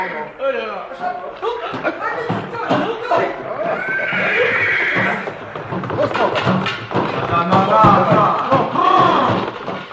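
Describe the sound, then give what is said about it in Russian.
A horse whinnies and neighs while being led, mixed in with people talking over it, with a few thuds around the voices throughout. “Ну, помоги лошадь завести.”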